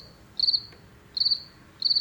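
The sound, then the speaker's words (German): Crickets chirp in three short, high, pulsing bursts, evenly spaced with quiet gaps between them and no other sound. “Warum entspannt Grillengezirpe den menschlichen Körper?”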